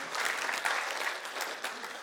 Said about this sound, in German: Ja, come on, Applaus für dich.